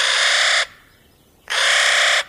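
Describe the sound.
Two harsh, grating caws from a nutcracker, a crow relative. Each is a loud, rasping burst lasting over half a second, with a short quiet gap between them.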